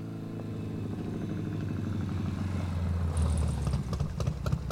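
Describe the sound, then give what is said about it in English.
Triumph motorcycle engine running at a low, steady idle, a deep throbbing rumble with a mechanical clatter that grows slightly louder and rougher toward the end. “Hey, it's a Greek triumph. Nice bike. Nice bike.”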